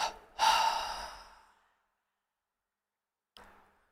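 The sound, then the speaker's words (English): A long, loud, breathy exhalation during a tense-and-release relaxation exercise fades out over about a second. After a pause comes a brief, fainter second breath. “with a double exhalation, release the breath and relax the whole body.”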